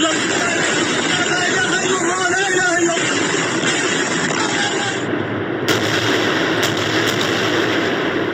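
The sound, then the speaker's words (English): Israeli missiles exploding in Gaza overnight during heavy fighting, a continuous loud roar with rumbling blasts and a few sharp cracks toward the end. “You are looking at Israeli missiles exploding in Gaza overnight, just one of the many attacks since this latest confrontation flared up.”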